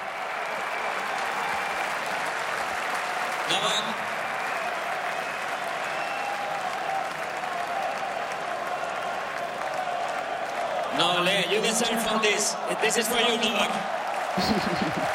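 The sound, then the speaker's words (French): A tennis crowd applauds Novak Djokovic in long, sustained clapping, with voices rising over the applause near the end. “Nolé, ce sont les encouragements du public avec le diminutif de Novak Djokovic en serbe.”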